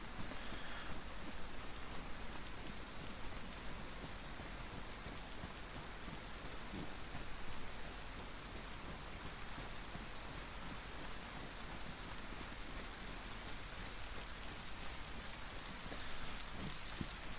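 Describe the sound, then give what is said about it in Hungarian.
Steady rain pours down in a video game world, a dense, continuous hiss of drops that holds at an even, fairly loud level for the whole stretch, with no voices. “Esik eső”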